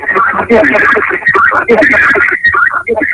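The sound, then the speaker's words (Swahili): A caller's radio plays in the background over a telephone line, a dense, continuous, muffled stream of voices and sound that never drops away, squeezed into the thin, narrow tone of the phone connection. “Unaweza kupunguza kidogo sauti yako ya redio tusikilizane vyema?”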